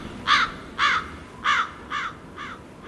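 Crows cawing: six harsh caws in a steady rhythm, fading slightly in loudness over a faint background hiss.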